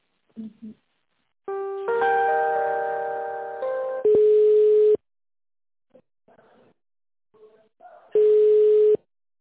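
Telephone tones sound while a call is being transferred: a sustained chime-like chord comes first, then two steady mid-pitched beeps of about a second each, separated by a long pause with faint scattered sounds.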